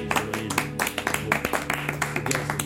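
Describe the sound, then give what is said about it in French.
Audience applause breaks out in brisk, fairly rhythmic claps with sharp individual hits, sounding alongside tonal music underneath. “Allez, on applaudit Séverine une dernière fois.”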